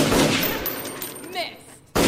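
Gunshot: a sharp, loud crack bursts out suddenly near the end, after a stretch of dense, rough noise.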